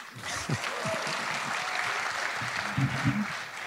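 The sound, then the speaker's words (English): Audience applause at a live event, a steady, fairly faint patter of clapping that continues evenly from start to finish. “no one has ever applauded my signature before.”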